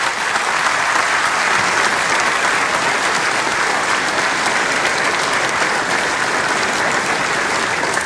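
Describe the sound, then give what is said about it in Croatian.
Theatre audience applauding at the Croatian National Theatre during its 130th birthday celebration, honouring Vatroslav Lisinski: a loud, dense, unbroken wash of clapping that stays level for the whole stretch. “Molim vas još jedan veliki pljesak za Vatroslava Lisinskog i za 130. rođendan ovog povijesnog zdanja Hrvatskog narodnog kazališta.”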